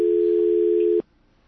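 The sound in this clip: A telephone dial tone sounds as a single steady, mid-pitched hum for about a second, then cuts off abruptly into near silence.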